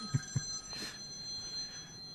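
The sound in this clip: A mobile phone rings with a faint electronic ringtone, steady high-pitched tones sustained throughout, with a couple of soft low thumps at the start.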